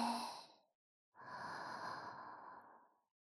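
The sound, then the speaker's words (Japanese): Deep breathing in and out: a soft, airy breath trailing off at the start, then after a short pause a long, slow, steady breath lasting about two seconds, heard alone without talk. “まずは深呼吸して、体の力抜こっか。吸って、”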